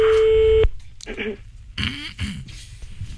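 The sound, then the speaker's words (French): A telephone ringback tone while placing a call sounds as a single steady, buzzing electronic tone that stops abruptly, followed by voices talking. “On appelle Olivier, c'est parti.”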